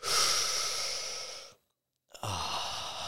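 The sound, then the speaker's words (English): Breathing in and out through the mouth during a breathwork exercise: a long, airy breath, a short silent pause, then the next breath starts, loud and with no voice over it. “We're going to breathe in through the mouth now, 10 breaths.”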